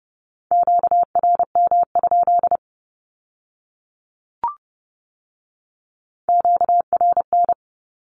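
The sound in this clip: Morse code sending a Q-code at 30 words per minute: two rapid runs of steady, mid-pitched beeps in dots and dashes, separated by a pause with one brief click between them.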